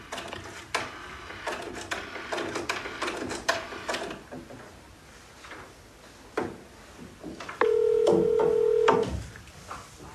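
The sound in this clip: A telephone being dialed to call someone, with a run of clicks and small mechanical taps, then a steady tone held for over a second near the end. No voices are heard.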